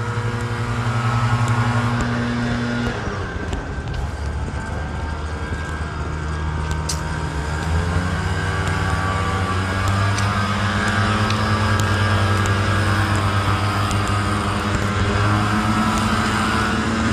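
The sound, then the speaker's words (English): Two leaf blowers run together, their small engines making a steady, continuous droning whine with overlapping tones that hold level throughout without pause. “I believe that sound you hear is a leaf blower duet.”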